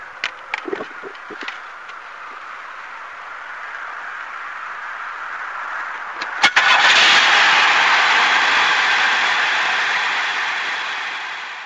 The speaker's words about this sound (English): everything seems pretty good so far. Temperature seems to be holding steady. I'm going to take a little test drive up the road